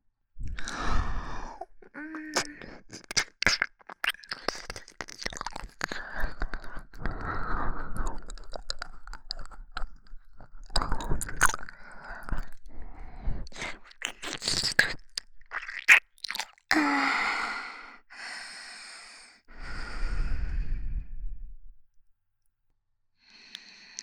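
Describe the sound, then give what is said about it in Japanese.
Wet licking and mouth sounds at the right ear: a close, dense stream of smacks, clicks and slurps with a few brief pauses, fading out at the very end. “ほら、右耳も舐めてあげるから、体を委ねて。”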